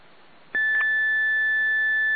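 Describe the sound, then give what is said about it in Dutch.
A computer gives a single shrill electronic beep after new hardware is connected: a steady high-pitched tone that starts abruptly over faint background noise and holds unbroken to the end. “Heb jij dat lelijke piepje weer aan staan?”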